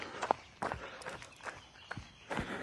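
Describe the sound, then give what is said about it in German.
Footsteps crunching over fallen beechnuts on a woodland path, several brittle, crackling steps at an even pace, fairly faint and without talk. “Laufe gerade über runtergefallene Bucheckern.”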